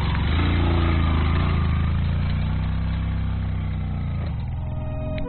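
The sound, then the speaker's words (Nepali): A motorcycle engine strains up a steep high-altitude climb while carrying two riders, giving a steady, heavy, laboring drone with strong low harmonics, running alone without talk before cutting off abruptly at the end. “समथलमा सहजै उक्लिन्छ motorcycle, उकालोमा तान्दै तान्दैन, एकजना ओर्लिनुपर्छ, एकजनालाई मात्रै चाहिँ लान्छ मोटरसाइकलले। तान्दैन हौ तान्दैन,”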